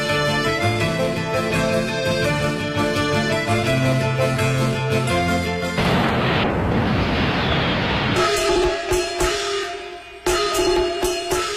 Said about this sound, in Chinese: 烟花灿灿，爆竹声声